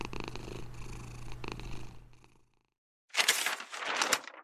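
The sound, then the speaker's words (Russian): A cat purring as it lies beside someone in bed, a soft, low, rhythmic purr that carries for about two seconds and fades out, followed by a short silence and then a brighter burst of noise. “Кот Мяв уютно мурлычет рядом с ней.”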